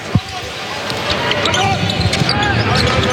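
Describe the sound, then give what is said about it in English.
A basketball is dribbled up the court by a player during a Trail Blazers basketball game. A few dull, thumping bounces stand out, with one sharp early bounce, beneath steady crowd noise and continuous talking. “Anderson dribbles the ball up to the wing with 17 to shoot.”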